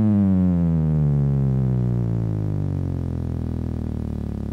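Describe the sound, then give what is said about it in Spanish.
Electronic oscillator tone from a three-oscillator circuit, its pitch changed with a resistor: a steady, buzzy, harmonic-rich drone that glides slowly downward in pitch across several seconds. “Esto es un voltaje que está subiendo y bajando, una señal que sube y baja a toda velocidad. Con una resistencia, yo voy cambiando el tono.”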